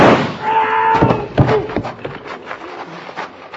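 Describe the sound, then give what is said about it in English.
A gunshot fired to free a belt snagged on a mill bucket: sharp, loud bang-like cracks stand out among other clattering noises. “I'll shoot your belt loose.”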